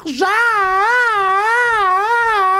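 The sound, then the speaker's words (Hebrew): A voice lets out a loud, continuous wail that rises and falls in a regular siren-like wave, imitating an ambulance to mimic a child screaming for food. “יש ילדים שמתחילים לצעוק, כמו הזעקה של אמבולנס, כי הם רוצים לאכול”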